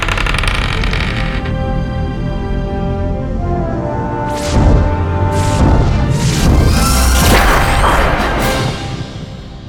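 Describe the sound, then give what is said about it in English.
A science-fiction spaceship's quantum drive engaging: a steady droning hum gives way after about four seconds to loud whooshing bursts and deep rumbling surges that fade near the end. “Set course for Epsilon and engage quantum drive. Course set. Drive engaged.”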